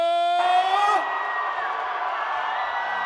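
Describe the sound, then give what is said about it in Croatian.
Crowd at a Balkan folk-pop concert screaming and cheering: a drawn-out shouted voice at the start gives way to a sustained, loud, dense roar of many voices that holds steady to the end. “Da vas čujemo, najveći vrisak za našeg kralja, kaže Aca!”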